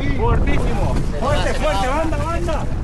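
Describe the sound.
Wind and water noise aboard a Canarian lateen sailboat (vela latina canaria), a steady loud rush under voices that talk throughout.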